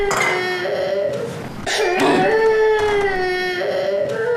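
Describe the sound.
A baby cries in loud, drawn-out wails with strong wavering pitch and a few short breaks for breath, the cries run together across the whole stretch with no other sounds standing out.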